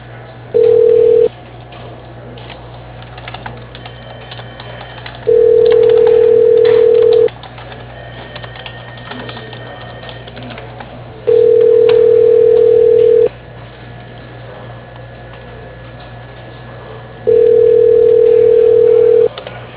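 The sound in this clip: Ringback tone on a telephone line while a call is being transferred: four steady buzzes, the first cut short and the rest about two seconds long, separated by roughly four-second pauses over faint line hiss.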